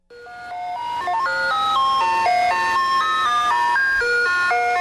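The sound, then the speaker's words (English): Ice cream truck chimes play a bright, tinkling melody of many quick stepping notes, loud and continuous with no voices. “While those chimes come in different melodies, the tinkling sounds pretty universal. It's the sound of the ice cream truck.”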